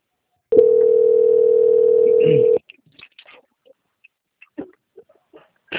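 Telephone line tone while a call is being transferred: one steady, buzzy, mid-pitched tone lasting about two seconds, then faint scattered clicks and small noises on the line.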